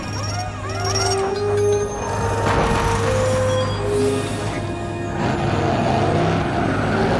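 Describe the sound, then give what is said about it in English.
Race car engines drone steadily as cars pull into a pit stop for wheel changes during a race, with sustained engine tones and several quick rising and falling pitch sweeps. “Tripp and Maggie come into the pit stop for wheel changes.”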